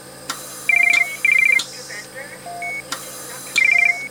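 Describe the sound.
Electronic telephone ringtone: several bursts of rapid, high trilling beeps alternating with lower single tones, separated by short clicks and gaps.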